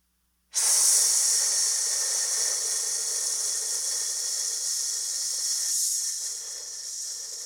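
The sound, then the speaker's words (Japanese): Slow, controlled breathing during a paced exercise, a long, steady airy hiss of breath that starts abruptly and holds for several seconds, easing slightly near the end. “5秒吸って5秒吐く。”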